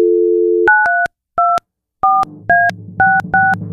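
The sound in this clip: Telephone dialing to call back. A steady dial tone gives way to a quick, uneven series of loud, bright touch-tone key beeps separated by short gaps. No one talks.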